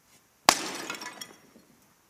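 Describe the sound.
A clay jar is smashed in one sharp crash, followed by a spray of scattering fragments that fade away over about a second.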